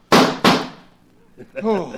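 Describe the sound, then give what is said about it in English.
Two sharp, loud gunshots ring out in quick succession in a radio drama, each with a short decaying tail, followed by a man's voice. “I put 6 bullets into you. Why did you fall? Your gun is empty now, Williams”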